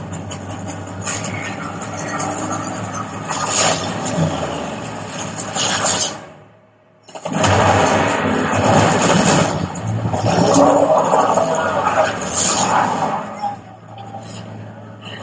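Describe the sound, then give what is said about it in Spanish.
Truck engine in a video game, a loud, steady rumbling drone with revving surges, which drops out briefly once midway before the engine roars back up. “Es que el sonido del camión también es la puta hostia, ¿eh? es que malo no tiene nada.”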